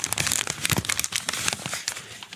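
Paper crinkled in the hand gives a dense run of rapid, crackling crinkles and small tearing-like rustles, irregular in rhythm and heard alone.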